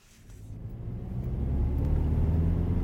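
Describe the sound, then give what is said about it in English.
A car drives along the main Belfast to Dublin road with a low, steady rumble of engine and road noise that swells during the first half and then holds level. “Today, driving down the main Belfast to Dublin road, you barely notice when you cross the border.”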